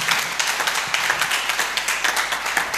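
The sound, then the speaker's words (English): Congregation clapping for the Lord during a church sermon: a dense, steady wash of many hands clapping at once, moderately loud and without talk. “Give the Lord a clap.”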